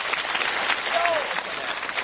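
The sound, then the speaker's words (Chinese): Audience applause for a traditional crosstalk comedy performance: a short, dense, even burst of clapping at steady loudness. “您要是爱听，您给我鼓鼓掌。”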